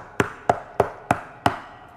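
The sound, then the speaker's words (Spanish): Five sharp, evenly spaced knocks on the door of a guest bedroom, rapped in a steady rhythm with nothing else heard. “No había estado ahí ni por media hora cuando alguien llamó a la puerta.”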